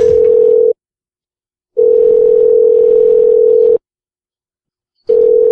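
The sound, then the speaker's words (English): A telephone tone sounds after a handset is picked up: a loud, steady, single-pitched hum in three bursts separated by silent gaps of roughly a second. “He picked up the phone and hung it up.”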